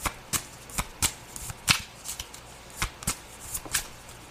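Playing cards being shuffled and drawn: many sharp, crisp flicks and riffles in an irregular series, each brief and papery, against near silence.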